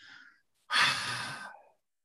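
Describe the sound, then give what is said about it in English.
Slow open-mouthed exhale, as if fogging a mirror: one soft, breathy hiss lasting about a second, following a shorter, fainter breath, with no talking. “bring it up to your mouth and exhale through your mouth like you're trying to fog this mirror.”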